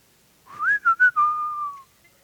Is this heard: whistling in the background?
yes